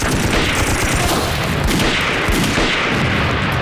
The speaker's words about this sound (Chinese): 他们至少有两个人盯着我们，我们一开枪他们就开枪了。